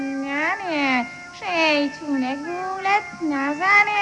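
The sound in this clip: Cat meowing: a string of several drawn-out, tonal meows that waver up and down in pitch, fairly loud and following one another with brief pauses.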